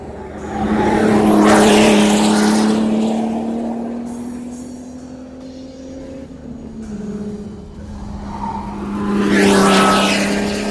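A Formula 1 race car accelerates hard out of a corner under load. Its loud, buzzing engine note climbs steadily, dips once briefly, then climbs again, with the roar swelling at the start and again near the end. No talk is heard.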